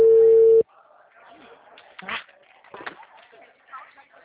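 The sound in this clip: A telephone ringback tone plays while a call is being placed, one steady, loud beep of about half a second, then faint voices and background sounds.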